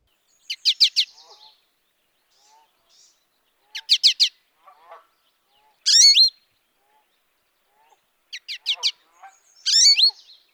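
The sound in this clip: An American goldfinch gives its calls: five bursts of rapid, high chip notes separated by pauses, with a few faint, softer notes in between.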